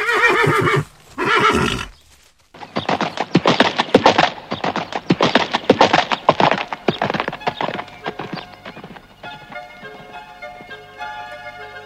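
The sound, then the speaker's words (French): A horse whinnies twice, then its hooves strike up a quick, steady clip-clop as it sets off into a canter. The hoofbeats come as many loud, even thuds that continue to the end. “Il me semble que Flamboyant a envie de faire un petit canter. Allez, flamboyant.”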